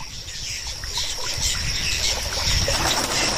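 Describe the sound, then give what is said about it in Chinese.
A flock of birds bustles on a lotus pond with a dense, continuous chatter of high calls over a steady watery wash, holding an even, fairly loud level throughout. “成家立业的历程在鸟群中循环往复，荷塘变得热闹非凡。”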